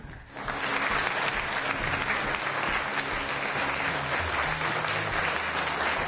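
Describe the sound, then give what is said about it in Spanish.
Applause sound effect taken from a sound website: a dense crowd clapping that swells in quickly at the start, then holds as a steady, even wash of claps to the end. “¿Y esos aplausos de dónde los sacaste? De una página de sonidos. De applause.wav.”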